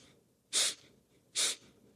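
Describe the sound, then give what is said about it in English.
Two short, sharp breaths drawn in through the nose with the mouth closed, as in an air-sipping breathing technique; brief hissy sniffs, evenly spaced, with quiet between them and no talking. “you can do something called air sipping, where your mouth is closed, your diaphragm pops a little bit, you're taking a short breath in through the nose like this,”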